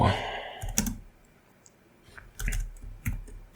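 Computer keyboard keys click as cut and paste shortcuts are pressed: a few sharp, quiet taps in short clusters, separated by a quiet gap.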